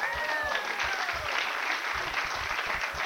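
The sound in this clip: An audience applauds for a woman, with steady, dense clapping of even loudness throughout.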